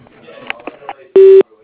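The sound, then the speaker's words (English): Voicemail recording beep: a single steady electronic tone lasting about a quarter second. It is clear and loud and follows the tail end of a spoken greeting. “please do so after the beep”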